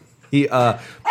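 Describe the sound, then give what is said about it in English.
An excited dog barking: a few loud, harmonic barks in quick succession, the first two running together and a third after a short pause. “Oh, that's my dog. He's very excited”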